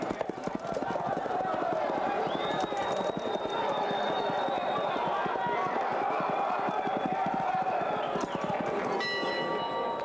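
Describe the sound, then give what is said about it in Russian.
Horses galloping in a race before packed stands, many rapid overlapping hoofbeats under a constant loud crowd roar that carries through the whole stretch. “Начался новый заезд. Побежали лошади. Трибуны полностью заполнены болельщиками.”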